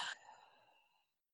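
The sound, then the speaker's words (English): A deep exhale out through the mouth during guided meditation breathing: one soft, breathy release that fades away in about a second. “One more deep breath, inhaling in through the nose. Opening up the mouth, exhaling it all the way out.”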